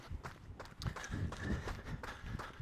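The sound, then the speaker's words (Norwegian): Running footsteps on a dark, unlit path along a cemetery memorial grove at night, a quiet, steady rhythm of footfalls continuing throughout. “Men for min del også, så klarer jeg ikke vekke noe frykt mens jeg springer. Springer ved en minnelund.”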